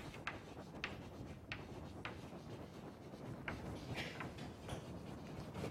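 Writing on a board during a university physics lecture on damped oscillations: many faint, scratchy strokes and taps come in an irregular rhythm over a quiet, hissy background.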